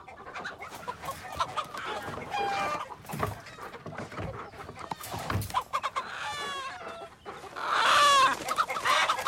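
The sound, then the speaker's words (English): Chickens crowd together in a pen, clucking continuously in many overlapping short calls. The busy flock chatter grows louder toward the end. “She leaves him in the pen with the chickens. He watches them impassively as they crowd together and cluck.”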